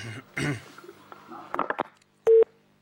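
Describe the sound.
A single short, loud electronic telephone beep marks an incoming call on a call-in show, after a few seconds of muffled vocal sounds and scattered clicks.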